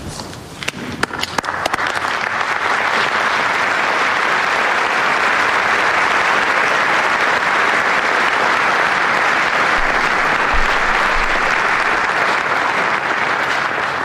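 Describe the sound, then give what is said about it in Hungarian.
Loud crowd applause thanking Pope Francis for his blessing. A few scattered claps quickly swell into dense, steady clapping that stays sustained and even for the whole stretch. “Napon is nagy tapssal köszönik meg Ferenc pápának az áldását, az ő tanítását.”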